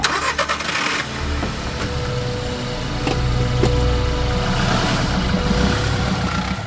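A car engine starting as someone drives off, a loud mechanical crank that catches and settles into a low, steady rumble that swells slightly partway through, heard alone without talking.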